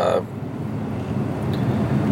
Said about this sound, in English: Wow, yeah, it's getting thick up here, this traffic.